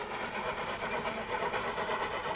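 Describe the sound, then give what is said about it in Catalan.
Steady rumbling train noise from a locomotive running on a railway line across a desert, a continuous dense roar with even loudness and no distinct whistle or breaks. “A l'horitzó, primer es perfila una fumarola i després una locomotora.”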